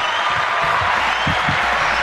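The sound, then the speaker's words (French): Studio audience applauding in a dense, steady wash of clapping that stays even and loud throughout the short stretch. “Le public en délire.”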